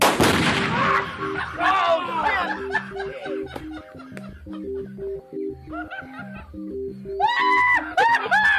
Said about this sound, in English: They blow them up using explosives.